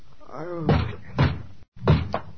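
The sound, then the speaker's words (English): Police pound heavily on a door: four loud, hollow thuds in an uneven rhythm, the last one lighter. “Come on, open up in here. Is that the police?”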